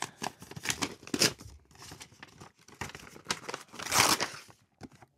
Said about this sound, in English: I'm going to rip it open. This is from Carol White with a couple of stamps on it.